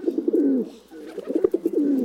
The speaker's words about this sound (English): Pigeons, often called rats with wings, are actually remarkable navigators.